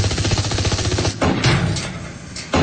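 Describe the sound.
Rapid gunfire in an audio drama battle scene, with robot men shooting from cover into a swarm of giant beetle-like creatures. A dense, continuous rattle of shots runs throughout, with sudden louder surges near the middle and at the end.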